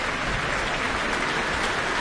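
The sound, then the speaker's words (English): Sustained applause from a concert audience in the Auckland Town Hall: a dense, even wash of many hands clapping that holds steady without fading, with no voices over it. “No sign of them fading. They clap on, bringing Okko Kamu back to the stage.”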